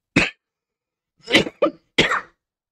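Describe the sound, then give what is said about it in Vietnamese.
A person gives light coughs, four short, sharp bursts separated by silence, the first standing alone and the last three following close together. “Khục, ho nhẹ một tiếng”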